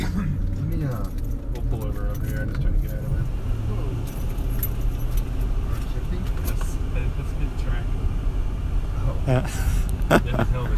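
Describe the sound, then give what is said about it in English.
Steady engine and road rumble inside a moving Dodge Durango SRT8, a loud continuous drone with people talking over it and a bright jingle of keys. “We're in a Dodge Durango SRT 8 at the moment.”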